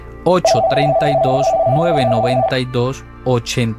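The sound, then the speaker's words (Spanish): A steady electronic telephone tone from an incoming call holds one pitch for about two seconds while a person talks over it. “Tenemos una llamada.”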